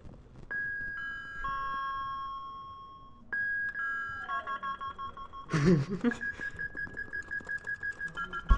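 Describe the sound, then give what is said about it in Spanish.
An apartment doorbell rings twice with a two-note chime, a high tone dropping to a lower one. A brief burst of noise and a steady run of rhythmic clicking follow. “ahora si queréis ya podéis escuchar el timbre de Raúl cuando vayamos a subir.”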